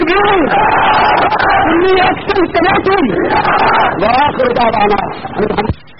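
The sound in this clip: Loud crowd shouting a chanted slogan in answer to a leader's call in praise of Muawiya, with massed voices rising and falling in a few bursts before cutting off abruptly near the end.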